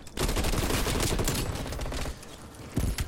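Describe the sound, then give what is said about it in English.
Rapid gunfire from a fast-paced, modern-warfare-style first-person shooter in a gun game mode. Dense, loud bursts of shots run almost without a break, ease slightly, then flare again near the end. “i just got two eliminations so far the gun game is actually really fun it's very fast paced hip firing actually works pretty good”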